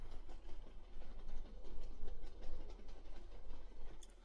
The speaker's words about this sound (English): And I'll keep pushing the tram toward the south transfer station.